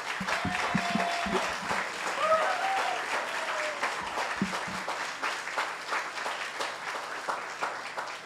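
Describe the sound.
Warm audience applause greets a speaker taking the stage at a Midtown Scholar event. A few whoops and voices ring out early in the clapping, which stays full before gradually thinning toward the end.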